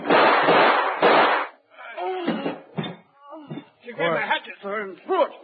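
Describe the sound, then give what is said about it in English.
Two loud gunshots in a dramatized scene after a hatchet is thrown, each a harsh, broad blast, followed by voices speaking in tense, halting bursts. “She got the hatchet, sir, and threw it. We had to shoot, sir.”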